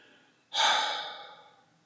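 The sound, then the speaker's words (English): One deep breath taken during a spoken prayer, heard as a single airy rush that starts abruptly, then slowly fades away with no talking over it. “One more deep breath in and out.”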